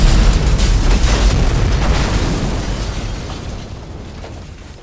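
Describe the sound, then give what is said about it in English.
An explosion blasts walls apart and sends bricks flying during a tabletop role-playing game. A loud, rumbling roar starts at full strength and slowly fades over about five seconds. “The walls explode with force. Bricks everywhere”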